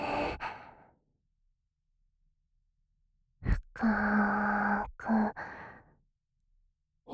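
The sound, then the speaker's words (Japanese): Deep breathing during a guided breathing exercise: a breath trails off, a few seconds of silence follow, then a louder, slightly voiced breath and a shorter one after it. “もう一回深く息を吸って”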